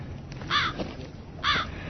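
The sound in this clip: Crows caw twice in Qom during summer heat, each call loud and harsh, separated by a short pause, with no voices.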